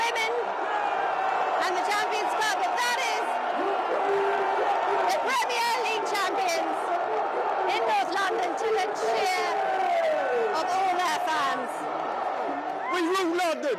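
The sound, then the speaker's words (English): Arsenal fans cheer their cup-winning team as the open team bus passes during a trophy parade. The crowd keeps up a continuous roar, with scattered whoops and shouts rising out of the babble of voices. “I'll just let you listen to that crowd. That is their team.”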